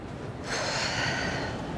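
A single deep breath starts after a brief quiet moment: a sudden airy rush, like a sharp intake through the nose, that holds steady and fairly loud until the end.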